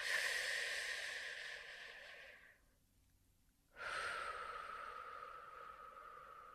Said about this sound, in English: Then we end that treatment round with a deep breath.